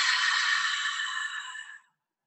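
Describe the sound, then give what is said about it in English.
A single long, deep exhale through an open mouth with a breathy "ha" during a guided breathing exercise. It holds steady for almost two seconds, then cuts off into silence. “take another really deep breath in, filling the heart, filling the belly, and then open your mouth and with an HA, exhale.”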